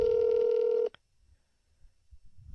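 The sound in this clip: A phone dials out on speakerphone: one steady electronic tone with a bright buzzy edge holds for just under a second, then cuts off abruptly and leaves only faint low rumble.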